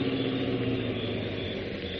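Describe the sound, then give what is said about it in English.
A car engine running outside a house with a steady, low, even rumble that holds the same loudness throughout, with no clear rise or fall. “Well, where's the car now? It went on down the street. Wait. I think that's it coming back.”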